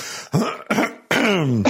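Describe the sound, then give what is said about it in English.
Someone gives an expectant cough, clearing the throat in three short, loud bursts. The last burst is a longer voiced 'ahem' that falls in pitch. “can we have a simultaneous rolling up of the sleeves and and an expectant cough?”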